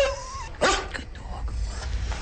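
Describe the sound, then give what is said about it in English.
A dog lets out one sharp, loud bark, followed by softer whimpering and yipping sounds over constant low background noise, with no voices. “You are a good dog.”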